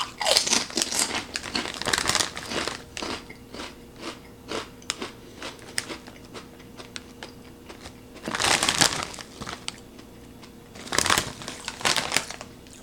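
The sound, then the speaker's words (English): Crunching and chewing of salt and vinegar pork rinds from the brand Brim's during a taste test, with many crisp, crackling bites and louder bursts of chewing recurring across the stretch without talk. “Here we go. 3, 2, 1. Taste test. Brim's salt and vinegar. Smells good. Here we go.”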